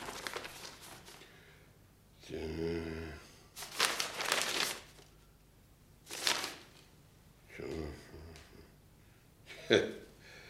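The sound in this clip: Written decrees being handled and read, the paper crinkling and rustling in several separate, sharp bursts with quiet pauses between them.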